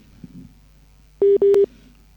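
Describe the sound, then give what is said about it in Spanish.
Telephone tones follow a dropped phone call: two loud, steady, mid-pitched electronic beeps in quick succession, the second longer than the first, over quiet background. “lastimosamente se fue la llamada con la doctora.”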